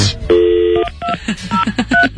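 Touch-tone dialling on a telephone: a loud, clean series of dual-tone beeps. The first tone is held for about half a second, then several short beeps follow in quick succession.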